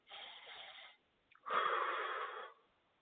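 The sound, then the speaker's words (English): Deep breathing through the nose during a guided belly-breathing exercise: two soft, airy hisses with no talk, a shorter one followed by a pause and then a longer, slightly louder breath. “I want you to breathe in deeply through your nose, not through your chest, but through your nose.”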